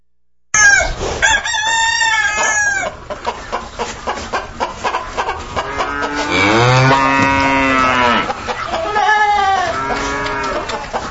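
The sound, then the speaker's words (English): Farm animal calls: a rooster crows loudly at the start, followed by a run of rapid clucks and then a long, deep cow moo, with more crowing near the end. “it's time for the animal voices, and the animals are herding in, and here they go.”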